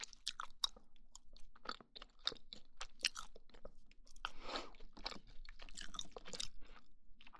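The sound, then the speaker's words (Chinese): Close-miked chewing and crunching of soft pumpkin toast: many irregular crisp bites and moist mouth sounds, quiet and intimate, with no talk. “我发现这个麦克风录吃东西的声音，真的比那种双耳麦克风好听。”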